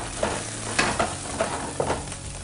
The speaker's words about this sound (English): Just make sure that this pan is just that medium heat because olive oil doesn't really have a high heat point. So let's just drop this in here.